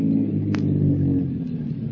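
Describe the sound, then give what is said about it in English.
Car engine on a little-traveled highway, a low steady rumbling drone that holds throughout with little change in level. “Afternoon on a little traveled highway. A strange-looking man in threadbare clothes stands hopefully by the roadside. A car comes around a curve. Slows up.”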